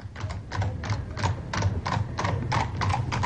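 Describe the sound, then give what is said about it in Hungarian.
Clip-clop of a horse-drawn carriage: a steady, even run of hoof strikes repeating throughout, with a low rumble underneath. “Lili, kérem, hozasson kocsit! Felkeressük ezt a Mr. Taylort. Megyünk a Manning Streetre.”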